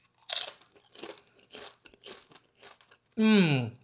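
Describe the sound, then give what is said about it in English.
Crunching of a tortilla chip dipped in kiwi salsa: several crisp bites and chews in an uneven rhythm, followed by a short, loud voiced hum at the end. “That squeeze of lime might be a good idea. But let's have a first taste with a chip.”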